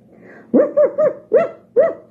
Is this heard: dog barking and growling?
yes

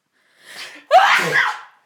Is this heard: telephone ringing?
no

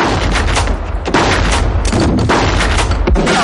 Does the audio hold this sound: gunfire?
yes

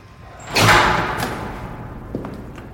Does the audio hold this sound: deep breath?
no

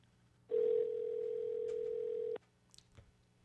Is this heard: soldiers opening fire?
no

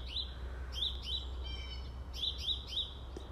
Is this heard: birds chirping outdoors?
yes

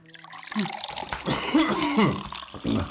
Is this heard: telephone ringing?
no

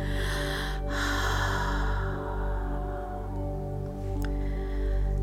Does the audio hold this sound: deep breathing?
yes

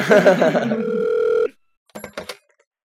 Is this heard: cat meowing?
no

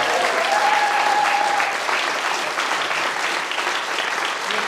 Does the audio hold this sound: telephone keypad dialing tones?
no

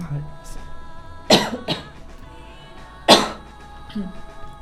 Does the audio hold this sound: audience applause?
no

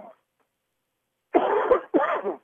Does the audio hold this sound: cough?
yes

